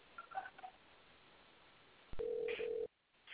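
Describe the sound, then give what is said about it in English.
Telephone ringback on an outgoing call, heard through a narrow phone line: faint tones at first, then one steady, mid-pitched ringing burst that stops abruptly. “Okay, it's ringing, but he's not picking up.”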